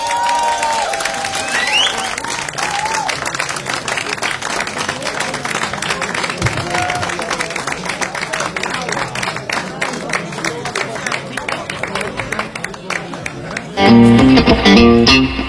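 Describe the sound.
An audience applauds a band with sustained, dense clapping that carries steadily for about fourteen seconds, with some cheering mixed in. Near the end the clapping gives way to music.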